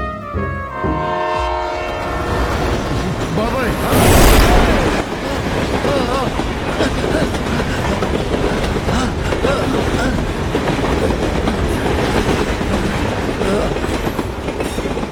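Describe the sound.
Train passing on rails, a loud continuous rumble and clatter of wheels that swells briefly near the start and rolls on steadily throughout.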